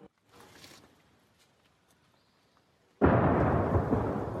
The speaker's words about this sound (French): les habitants de la petite ville de New York, dans l'est de l'Ukraine, se sont habitués aux détonations répétées. En voilà une.